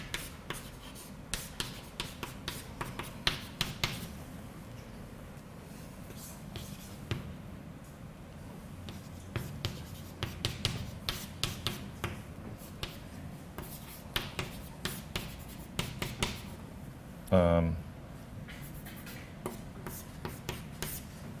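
A pen scratches out sine and cosine formulas by hand in many quiet, irregular strokes and taps, with one louder, longer scrape near the end.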